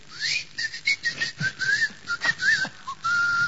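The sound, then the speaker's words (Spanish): A person whistles to imitate a loud summoning whistle while telling a joke: an opening upward swoop, then a run of short warbling chirps, ending in a longer held high note. “Y pega un chiflido”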